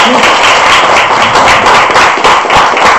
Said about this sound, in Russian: Потрясающий. Супер. Аплодисменты.